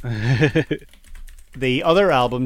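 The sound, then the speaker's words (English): Typing on a computer keyboard, a quick patter of light clicky keystrokes heard in a pause between stretches of someone talking. “And while I look that up and horribly type into the keyboard,”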